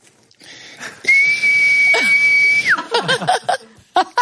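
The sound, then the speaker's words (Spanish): A person whistles without using the lips, holding a clear, high, steady tone for about a second and a half before it slides downward, then laughter breaks out. “Silbar sin labios. Y lo estoy haciendo con la boca, lo qué juro.”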